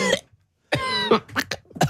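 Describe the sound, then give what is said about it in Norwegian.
Harsh, loud coughing from someone who got a fly in the throat while cycling, with a few hacking bursts, some of them strained and voiced, separated by short pauses. “Ja, ble det noe i vrangstrupa? Rett og slett ut og syklet, ja. Fikk flu i halsen.”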